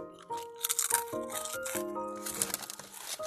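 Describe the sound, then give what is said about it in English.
Chips being eaten softly, with many quick, crisp crunches and crinkles over sustained tonal music. “You sit over here like softly eating your chips.”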